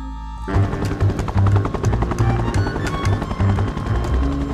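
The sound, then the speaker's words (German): A helicopter flies through dense, driving snowfall toward a mountain monastery near Grenoble: a loud, continuous rapid chop of rotor blades over a low engine drone, steady throughout with no voices. “Mit einem Hubschrauber wurde Laviolette trotz dichten Schneetreibens in das Kloster Grande Chartreuse in der Nähe von Grenoble gebracht.”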